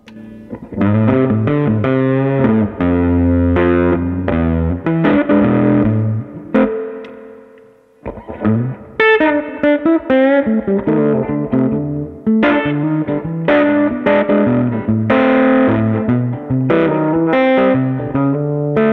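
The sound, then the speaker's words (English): Electric guitar played through a Cookie Monster fuzz pedal: thick, heavily distorted chords and riffs ring out loud and sustained, with a brief pause near the middle before the playing resumes. “you're always trying to find the right fuzz. Yeah. So here's the Cookie Monster now.”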